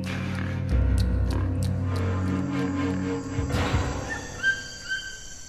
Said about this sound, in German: Im Urwald ist es laut. Die Geräusche kommen von Grillen, Fröschen, Vögeln, Affen.